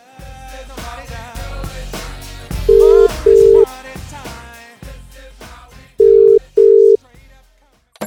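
Telephone ringing tones as a call is placed: two pairs of steady, mid-pitched beeps, each pair a quick double ring, sounding over loud background music with no talking.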